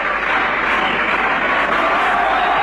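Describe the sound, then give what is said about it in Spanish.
An audience applauds at a local event in Villegas, a dense, even patter of many hands that stays loud and steady for the whole stretch with no breaks. “Ahí aplaudiendo gente de Seré, de Timote, de Tejedor, de Villa Sauce, de Intendente Alvear,”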